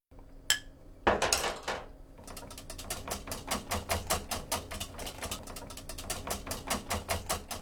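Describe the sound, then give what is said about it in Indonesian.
Rapid, steady clicking as a whisk beats a honey and milk mixture into beaten eggs in a bowl, after a couple of louder knocks, with many fast metallic taps in an even rhythm. “Setelah itu masukkan campuran itu ke dalam kocokan telur dan aduk rata menggunakan alat pengocok.”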